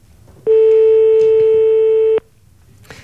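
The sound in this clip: A telephone call rings on the line as one long, steady electronic ring tone, mid-pitched with bright overtones. It lasts under two seconds and then breaks off into faint background noise.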